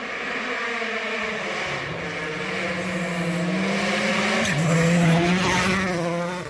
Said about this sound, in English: Out in the Hyundai on Finnish gravel for the first time today.